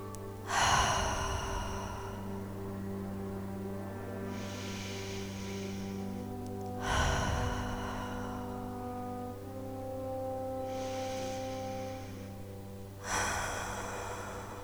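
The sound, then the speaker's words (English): Three deep cleansing breaths taken during a guided meditation, each a loud, breathy rush followed by a softer exhale, spaced evenly over a steady, low sustained musical drone. “we're going to take some cleansing breaths together.”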